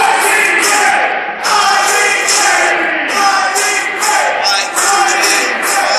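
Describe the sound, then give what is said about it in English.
A wrestling crowd chants a wrestler's former ring name in loud, repeated rhythmic bursts that keep a steady beat from start to finish. “This crowd now behind Rob Cook, of course, chanting his former name that he worked under, Ivy Green.”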